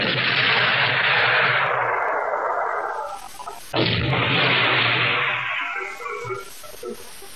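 Enemy artillery fire: two heavy, loud blasts, each followed by a long rumbling roar that slowly fades before the next shell lands.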